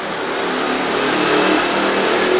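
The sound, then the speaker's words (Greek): A motorbike passes outside, its engine a steady, broad drone that swells slightly midway and stays loud throughout. “Να, τώρα πέρασε απ' έξω ένα μηχανάκι, πώς σου φάνηκε?”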